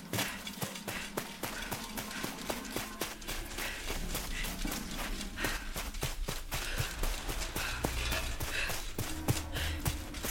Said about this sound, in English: I'm definitely not covering up the sound of my friends running away to safety.